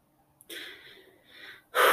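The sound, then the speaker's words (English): Deep breaths drawn audibly by one person: a few long, breathy inhalations and exhalations with short quiet gaps, the last one abrupt and the loudest. “My body really needs some deep breaths right now, guys.”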